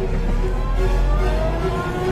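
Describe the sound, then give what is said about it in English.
A car engine runs in a steady, loud, low drone with a faint tonal hum, holding constant through the whole stretch without a break. “I get into my car. I turn the key. The car starts. I reverse.”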